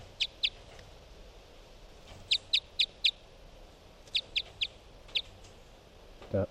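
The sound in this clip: Short, high, sharp bird chirps come in clusters: two, then four, then three, then a single one. Each chirp is a brief, evenly spaced tick, faint over a low background hiss, and ends with a soft low thump.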